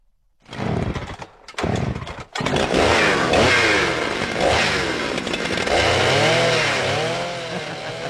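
Chainsaw cutting, opening with a few short, separate revs before the engine settles into a loud, sustained snarl whose pitch rises and falls repeatedly as the saw works.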